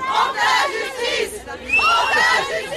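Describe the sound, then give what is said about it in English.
A crowd of supporters cheering and shouting outside a courthouse opposite the old walls of Avignon, loud overlapping voices rising in two main surges with high, ringing shouts in the second. “Outside the courthouse, opposite the old walls of Avignon, Gisèle Pelicot's supporters cheered the verdicts”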